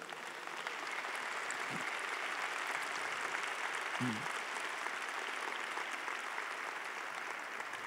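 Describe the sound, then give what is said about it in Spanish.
Church audience applauding for Jesus during a Spanish-language sermon, a steady, dense wash of clapping that runs unbroken from start to finish at a fairly faint, even level. “Dale un fuerte aplauso a Jesús.”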